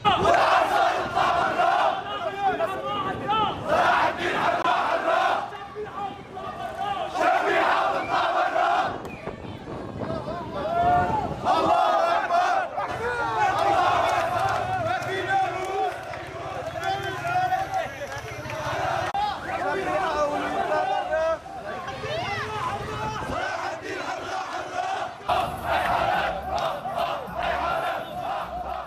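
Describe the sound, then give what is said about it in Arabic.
Protesters chant slogans at an evening demonstration in Jisr al-Shughur in the Idlib countryside, a loud crowd calling out in rhythmic, repeated bursts that continue without a break. “في جسر الشغور أيضا في ريف محافظة إدلب شهدت مظاهرة مسائية ردد خلالها المحتجون شعارات تطالب بمحاسبة فلول النظام”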